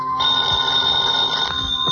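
A telephone bell rings steadily for the whole clip, a bright, high, continuous trill with no voices over it.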